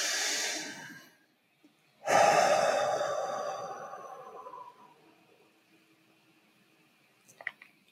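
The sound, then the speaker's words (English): A deep breath in and out: a breathy rush of about one second, a pause, then a longer, louder breathy exhale that slowly fades. No talking. “Inhale and exhale.”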